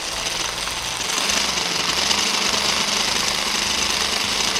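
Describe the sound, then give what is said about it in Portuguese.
A food processor motor runs at full power while blending cooked beans into a smooth paste, giving a loud, steady, gritty whir that holds without a break and with no talk over it. “só para dar uma raspada na lateral do meu processador, ó, para que fique tudo bem dissolvido. Nós queremos que fique num ponto aqui de pasta mesmo, tem que quebrar todos os grãos de feijão, vai ficar uma pasta homogênea. Deixa eu ligar de novo.”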